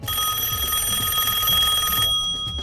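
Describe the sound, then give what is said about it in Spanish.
An incoming call on a telephone: a bright, steady electronic ring with a fast pulsing shimmer that runs for about two seconds, then cuts off abruptly. “Gracias por llamar. Recibimos otra llamada.”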